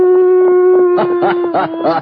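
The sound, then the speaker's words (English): A person's voice imitates a coyote howl. It is a loud, sustained, steady-pitched note that breaks into a few wavering, yelping pulses in its second half. “This has to be a coyote.”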